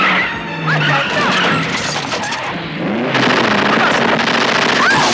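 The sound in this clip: A car accelerates hard and skids, its engine roaring under sharp tire squeals, with the noise growing louder and rougher partway through.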